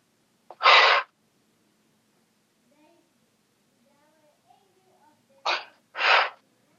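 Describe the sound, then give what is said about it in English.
Heavy breaths through the mouth: three forceful, breathy bursts, one alone, then after a long quiet gap two more close together. “With your mouth. Breathe in and out 5 times heavily with your mouth.”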